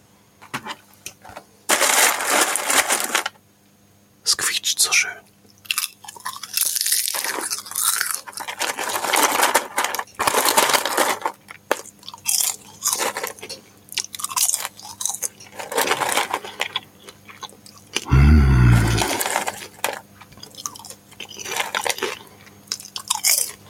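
Popcorn being eaten, with loud crunchy bites and munching repeating in irregular bursts separated by short pauses.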